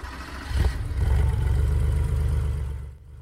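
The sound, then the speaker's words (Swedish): A boxer six car engine starts with a short burst, then settles into a steady low rumble that eases off near the end, with no voices. “Jo, där passar nyckeln och boxersexan vaknar till liv.”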